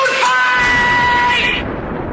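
A man lets out a single loud, drawn-out yell, a strained bellow held steadily for about a second and a half before it cuts off, leaving a quieter background.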